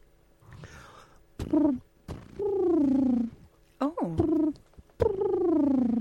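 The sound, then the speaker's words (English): A human voice imitates a wood pigeon's call with a series of breathy, hooting notes. Some are short and others drawn out, and several slide downward in pitch in a repeating cooing pattern. “I can do a wood pigeon.”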